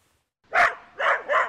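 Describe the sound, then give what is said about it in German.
A Belgian shepherd dog barks during agility training over small obstacles, giving three short, bright, mid-pitched barks. A longer gap follows the first and a quicker pair comes at the end, alone with no talk. “Der belgische Schäferhund Izzy fliegt nur so über die kleinen Hindernisse.”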